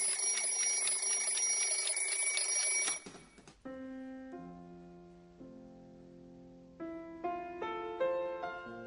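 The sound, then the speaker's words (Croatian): A children's alarm clock rings with a loud, dense electronic trill for about three seconds, then switches to a bright melody of stepped tones rising and falling, with no voices. “Dečiji budilnik. Dečiji budilnik.”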